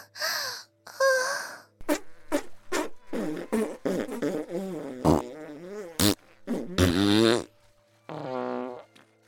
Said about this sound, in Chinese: 除了一阵阵的放屁声